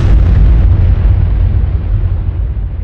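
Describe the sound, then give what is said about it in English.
Atomic bomb test explosion over the New Mexico desert, a tower-mounted device in 1945: a loud, deep, sustained roaring rumble that holds steady throughout, its upper hiss slowly dulling. “the gadget exploded over the New Mexico desert, vaporizing the tower and turning the asphalt at the base of the tower into green sand.”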